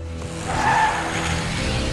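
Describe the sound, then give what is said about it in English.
A truck swerves on a road with its tires skidding: a low engine rumble beneath a short, rising screech of rubber that fades into continuous road noise. “The truck swerves to dodge two reindeer.”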